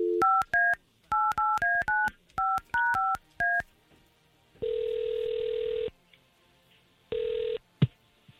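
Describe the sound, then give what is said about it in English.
Touch-tone beeps from a telephone number being dialed come in quick clusters of short, clear tones, followed by two long ringing tones on the line, the second cut short, then a brief click. “Danny, and we're going to try to call him right now”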